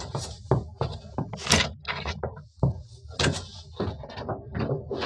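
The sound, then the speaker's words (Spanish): The first drawer of a wooden chest of drawers is pulled open, producing many short knocks, thuds and sliding rattles that come in an irregular series of sharp bursts at a moderate level, with no voices. “Es Wanda la que se sorprende vivamente al abrir el primer cajón de la cómoda”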